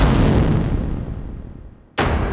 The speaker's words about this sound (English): their path, and are answered by Rico's firing low once again, giving Terra the perfect kill shot.